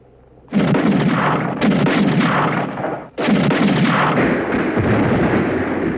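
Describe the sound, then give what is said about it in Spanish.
Gunfire sound effect from a radio drama: guards fire in all directions. A loud, dense barrage rolls on without pause, breaks off briefly around the middle, then resumes just as heavily to the end. “Disparan hacia todas partes, sin saber dónde está Calimán”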